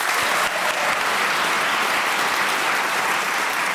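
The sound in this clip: Audience applause greets the teams at a panel show, a loud, dense, even patter of many hands that holds steady throughout without a break.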